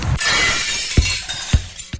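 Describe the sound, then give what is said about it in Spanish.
A glass vase shatters after being struck by a football, a bright sustained crash of breaking glass punctuated by a few sharp, heavy impacts as pieces strike down, with no voices. “todo empezó cuando era muy niño y rompí el florero con un balón.”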